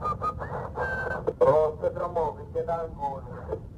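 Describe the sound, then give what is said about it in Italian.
Whistling over a recorded harbour radio transmission during a burning ferry emergency: a short, thin melodic tune on a narrow, crackly channel, mixed with muffled voice-like sounds at a moderate level. “Si sente addirittura uno che fischietta e poi un'imprecazione pesante in dialetto pugliese.”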